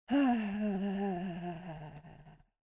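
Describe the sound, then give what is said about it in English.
A sustained voiced "ah" is held on an exhale while the ribcage is tapped rhythmically during a vocal loosening exercise. The tone wavers slightly, dips in pitch, is pulsed by many steady taps, then fades out. “And on the exhale, an ah sound and tapping the ribcage.”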